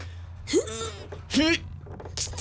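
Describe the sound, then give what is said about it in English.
A player's voice in a tabletop role-playing game letting out two strained, effortful groans while pushing, each a short voiced rise that breaks off, heard alone. “Groan quieter. Sorry. You're groaning too loud.”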